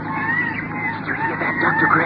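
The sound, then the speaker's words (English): Seagulls cry in faint, wavering, high tones beneath a person speaking, against a steady windy background. “Yes. Seagulls.”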